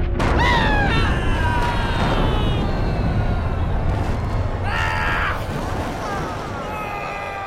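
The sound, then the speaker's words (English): Explosion effect of heads bursting apart and spraying gore: a loud, dense rumbling roar that fills the whole clip, with higher tonal streaks riding over it, easing slightly toward the end. “Just then, their heads explode, sending gore everywhere.”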